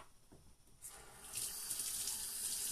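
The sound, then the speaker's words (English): Water running from a sink tap, beginning as a low, quiet trickle and then swelling into a steady, louder rushing stream that continues to the end. “Can I get a little water on this sink?”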